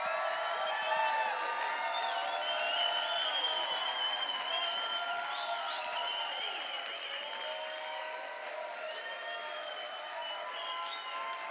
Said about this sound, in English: I want you guys to give the most rowdy, just obnoxious, honoring welcome to Doug and Karen Stanton. Would you please?